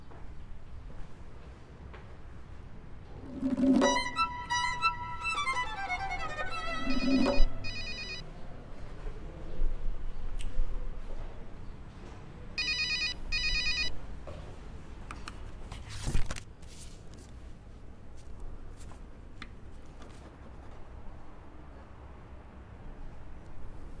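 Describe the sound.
A telephone rings unanswered in several separate bursts of bright, trilling bell tone with quiet gaps between them. The ringing is fairly soft and no one speaks.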